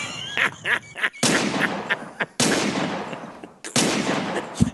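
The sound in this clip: Gunshots: three loud, sharp blasts, each trailing into a long decaying rumble, with shorter honking and crackling noises before and between them.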